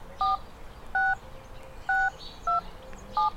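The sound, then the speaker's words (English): Telephone keypad tones dial a voicemail passcode: five short, clear two-note beeps at uneven intervals over a faint background hiss. “To access your voicemail, please dial your 6-digit passcode.”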